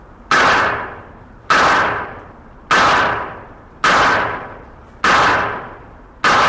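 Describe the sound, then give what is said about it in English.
Gunshots fired from the shoulder with the weapon raised to eye level. Six sharp, loud cracks come at a steady, fairly slow cadence, each with a quickly fading tail. No talking is heard. “Now he will bring the weapon up to eye level using the same stance, which we call point shoulder shooting.”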